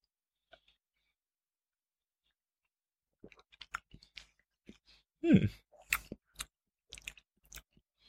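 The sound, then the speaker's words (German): Quiet mouth sounds of people sipping Talisker Distillers Edition 2005/2015 whisky, 45.8 percent: after a long near-silence, many faint wet clicks, lip smacks and swallowing ticks arrive in an irregular patter, with one louder brief voiced exhale in the middle. “Wir nehmen mal einen Schluck, oder? Wir nehmen mal einen Schluck.”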